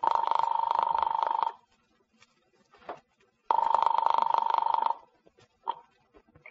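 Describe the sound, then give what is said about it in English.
A telephone ringing after being dialed: two long, steady electronic ring bursts, each about one and a half seconds, separated by near silence with a few faint clicks between them. “As I dialed Daisy's apartment, I was hoping she'd be home.”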